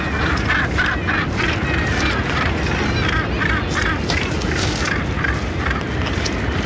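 Northern gannets call at their nests in a dense colony on Bass Rock: loud, continuous harsh cackling, with many overlapping calls in rapid repeated bursts.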